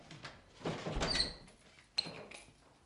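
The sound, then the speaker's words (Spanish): A house door is pulled shut, with a faint scraping movement followed by a single short knock, all quiet. “Cierra la puerta.”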